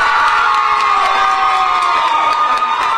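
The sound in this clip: Crowd cheering and whooping as the new Fort Wayne mayor is introduced at an Allen County Democratic Party caucus, a loud, dense, continuous roar of voices that holds steady throughout.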